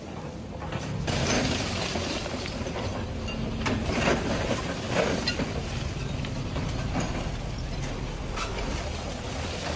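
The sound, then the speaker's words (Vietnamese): Excavators and cranes grind away at a demolition site, a continuous, dense mechanical clatter with rattling, ratchet-like scraping and irregular knocks, holding steady at a moderate level throughout with no voices. “Tiếng máy xúc, tiếng cần cầu, những hình ảnh về một nơi đã từng là nhà đang dần dần tan biến.”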